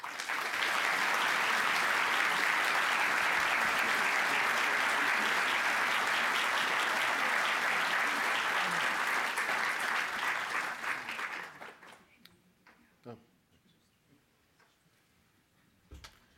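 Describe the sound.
Sustained applause from an audience welcomes an author about to speak, a dense even clapping that lasts about eleven seconds before dying away into near quiet broken by a few faint knocks.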